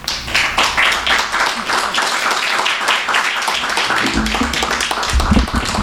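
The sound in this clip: An audience applauds to welcome an author before a reading, dense and steady clapping from many hands that holds at an even level from start to finish.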